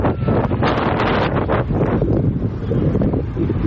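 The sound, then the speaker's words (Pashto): Strong wind blows around the tents of an earthquake survivors' camp in cold weather, a loud, continuous rumbling roar that buffets the microphone and swells in gusts, with no talk. “نږدې هر ورځ او شپه دلته سخت بادونه او توپانونه چلیږي.”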